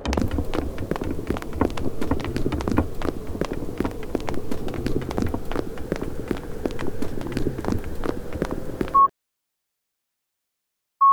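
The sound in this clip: Several people hurry down a cold hallway on foot, making a dense, steady patter of hard, quick steps for about nine seconds. The steps stop abruptly, and two short electronic tones sound in the silence that follows.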